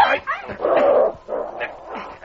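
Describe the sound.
A dog barks and whimpers while being muzzled, giving a run of strained, whining yelps with short pauses between them.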